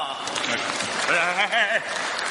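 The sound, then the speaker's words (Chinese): Audience applause during a live stream, steady clapping with a voice carrying over it, the voice's tones rising and falling in the middle. “掌声响起来。 不要停， 哎， 掌声继续，不要停。”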